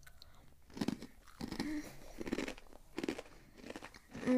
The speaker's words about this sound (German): die zerstampfte, frittierte Brezel. Mm. Mm. Schmeckt anders.